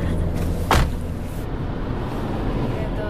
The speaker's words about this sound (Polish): Ciśniemy. I jedziemy prosto. Jedziemy bardzo szybko.